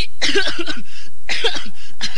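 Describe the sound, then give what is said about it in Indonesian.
Harsh coughing from someone standing in a marching line during drill. It comes in two clusters of several short, throaty coughs with a brief pause between them. “Hei, kenapa ini? Baris kok pakai batuk-batuk segala?”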